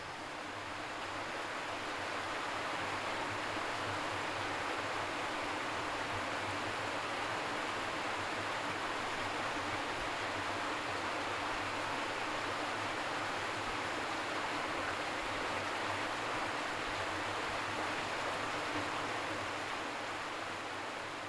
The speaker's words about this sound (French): Nous voilà près de l'eau du Lignon. C'est notre nouveau point d'observation.